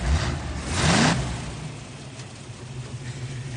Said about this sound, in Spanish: Aprieta el acelerador, ¿quieres?